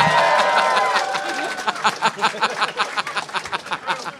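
A live audience boos loudly, a dense sustained crowd roar that breaks into quick pulsing bursts as it continues.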